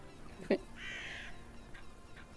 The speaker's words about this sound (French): sur le toit de l'édifice, il y a quelques corbeaux